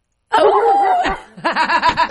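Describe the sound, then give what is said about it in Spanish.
A person vocally imitates a barking dog, starting with a loud, drawn-out whining cry and then a quick run of rhythmic, yappy barks. “¡Cuando el perro ladra!”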